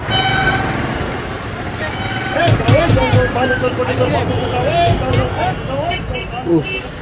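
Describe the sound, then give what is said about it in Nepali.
A busy city street packed with traffic and crowds: repeated car horn toots and honks over a dense babble of voices, with people talking close by throughout. “अब त यो बाटो काट्न पनि घन्टौँ कुर्नुपर्ने भयो। हो भने यो सहरमा मान्छे र गाडीको भिड चाहिँ असाध्यै छ।”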